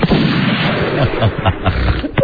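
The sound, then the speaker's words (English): Gunfire from weapons being shot: dense, loud bursts crowd together with no pause, forming a continuous, harsh barrage. “Just over here, and I'm shooting my weapons.”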